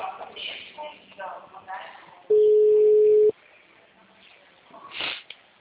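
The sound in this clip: A single long, steady ring tone on a telephone line holds one even pitch for about a second. It is loud and stands alone between stretches of faint talking.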